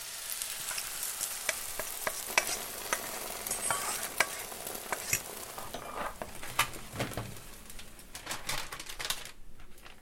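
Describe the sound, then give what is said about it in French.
An omelette with onion and paprika sizzles in a frying pan: a dense, steady crackle with many sharp pops and occasional stirring scrapes, fairly faint, with no voices. “j'aime bien l'odeur de l'oignon à la cuisson. Un peu de paprika, ça c'est bon, et hop, on verse dessus.”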